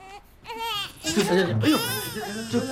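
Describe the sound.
A baby cries loudly in strained, high wails. The crying starts softly, then breaks into several louder, wavering sobs that continue to the end.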